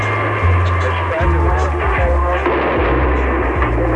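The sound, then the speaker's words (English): A fire department high-pressure pumper runs during a riot, a loud, continuous roar over a low droning hum whose tones shift slightly throughout. “That's the sound of a high pressure pumper from the fire department.”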